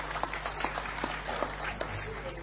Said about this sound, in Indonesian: Monggo Pak Tafsir, tepuk tangan semua teman-teman sekalian dengan cinta.